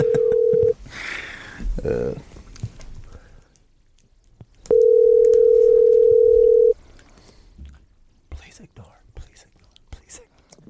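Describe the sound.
Telephone call tones: a loud, steady single-pitch ringing tone sounds twice, the second lasting about two seconds, with quiet whispering voices and soft rustling between and after the tones.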